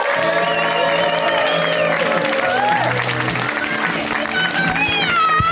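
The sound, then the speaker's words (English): A comedy show audience applauds and cheers to welcome a comedian to the stage. The clapping is dense and steady throughout, with whoops and shouting voices mixed in. “And you can keep that applause going because this next comic is their first time on the show.”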